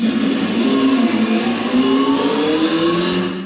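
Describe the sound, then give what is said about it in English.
A car engine droning steadily as the car is driven home, a continuous mid-loud hum over a low rhythmic throb that eases slightly at the end. “Anthony took her back home in his motor.”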